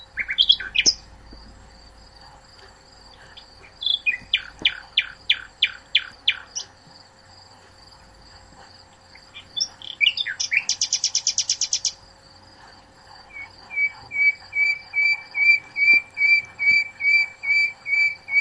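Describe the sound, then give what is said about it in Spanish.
Bird song: repeated, whistled phrases of quick downward-sweeping notes, a brief rapid trill, then a steady, rhythmic series of clear notes. The bird sings alone with no voices, over a faint, steady background. “Vamos a ver si podemos volver a escuchar nosotros el audio el pájaro por el que estamos preguntando.”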